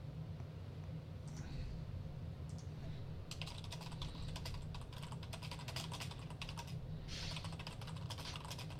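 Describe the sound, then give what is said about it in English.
Typing a short chat message on a computer keyboard, with many quick clicks in a dense, uneven run over steady background noise and a low hum. “I typed wave at Beatmaster.”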